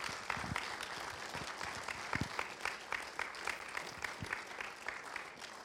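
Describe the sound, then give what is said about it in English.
Audience applause greets a guest speaker as he comes forward, steady dense clapping that holds for the whole stretch with no talk over it. “So would you put your hands together as he comes now?”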